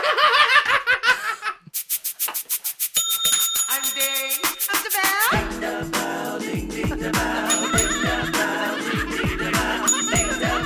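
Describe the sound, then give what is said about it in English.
A small bell is rung rapidly many times in a bright, ringing run of strikes. Laughter comes before it, and a busy, rhythmic stretch of sound follows. “Yay, here's the bell. Let's do it again.”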